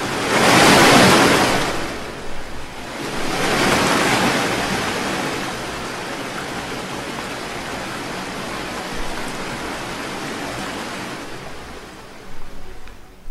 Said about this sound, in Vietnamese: Những con sóng cuộn trào dữ dội, trong chớp mắt đã đến chung quanh con thuyền nhỏ.